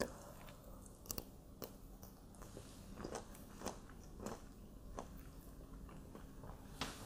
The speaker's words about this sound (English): I'm breaking open some autumn olives for myself to munch on.